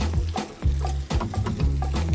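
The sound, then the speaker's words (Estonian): Egg frying in hot oil added to a pan of cooked rice: a few low knocks and bursts of sizzling crackle come in quick succession, loud and without talk. “paneme siia veel natuke õli. Nii, siis võtame siit, võtame muna, ma ei tea, ma löön selle siia.”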